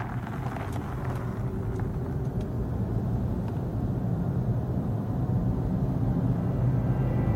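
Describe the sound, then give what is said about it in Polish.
An electric zero-emission BMW i3 car driving, heard as a steady, even rumble and road hum that holds at one level throughout, with no voices. “Tak brzmi elektryczne, zeroemisyjne BMW i3.”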